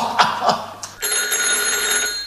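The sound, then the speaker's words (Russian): A telephone rings at night in a lodging, a loud sustained bell tone with bright metallic overtones, following a few brief knocks or steps and holding steadily to the end. “Кто же подойдет к телефону?”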